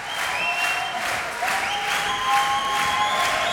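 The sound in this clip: Audience applause after a song, a dense, sustained wash of clapping that stays even and fairly loud throughout.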